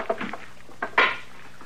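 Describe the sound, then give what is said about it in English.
A stick of wood bangs against a stove in a few dull, clattering knocks: two or three quick light hits, then a pause and two louder ones, the final knock the strongest. “Well, that stick of wood, of course. You're going to wreck it banging it on the stove that way.”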